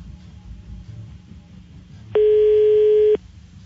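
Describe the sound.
Telephone tone while placing a call: a single steady, even-pitched tone lasting about a second, loud over a low rumbling background.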